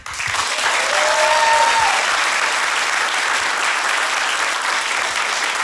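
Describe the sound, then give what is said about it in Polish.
Audience applause at a live concert as guest musicians are introduced on stage: loud, dense, steady clapping from a large crowd that holds at full strength without pause throughout. “najpierw proszę o wielkie, wielkie brawa.”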